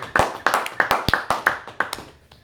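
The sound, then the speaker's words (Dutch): Sparse hand claps from a small audience at a talk on servant leadership, sharp separate slaps in an uneven rhythm that thin out toward the end. “Een applaus daarvoor.”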